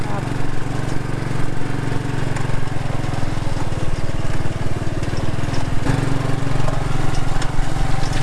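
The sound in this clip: A powerful car engine produces a steady, loud, low rumbling drone with a fast, buzzing pulse. It holds at an even level throughout, with no clear revving up or down.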